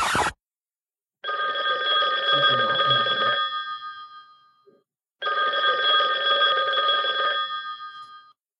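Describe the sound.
A telephone rings with an incoming call: two long, bright, trilling ring bursts of steady loudness separated by a short pause, preceded by a brief click.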